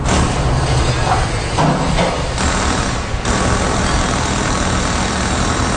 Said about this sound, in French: C'est pas mal comme ça que ça sonne dans bien des garages à l'Abitibi-Témiscamingue en ce moment avec la pose des pneus d'hiver.